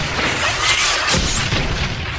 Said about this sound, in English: That's a missile fire. The motorcade's been hit.